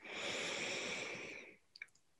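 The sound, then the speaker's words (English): A deep breath drawn in during a breathwork session: a soft, airy inhale lasting about a second and a half, fading out and followed by a couple of faint clicks. “Taking a deep breath in,”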